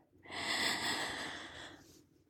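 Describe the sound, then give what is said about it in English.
One deep breath drawn in through the nose, a soft, airy inhale lasting about two seconds that swells and then tapers. It is faint and heard on its own, with no talk. “take a deep breath in, y'all, like a big deep breath.”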